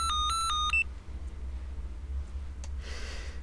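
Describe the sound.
A telephone rings with a quick burst of bright electronic beeping pulses. A low, steady hum and faint background noise follow.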